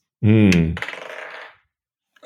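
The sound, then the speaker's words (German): Dice are rolled across a surface during a tabletop game, a quick rattle of small clicks that decays within about a second, preceded by a brief voiced grunt. “Nächste Würfel-Action.”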